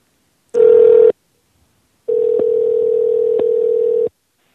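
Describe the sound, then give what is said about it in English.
A recorded telephone ringing tone heard over a phone line, two steady buzzy mid-pitched bursts: a short one of about half a second, then a longer one of about two seconds with a couple of faint clicks, with silence between and no voices. “We got some sporadic ringing here. A recording of ringing? Yeah, these are fake.”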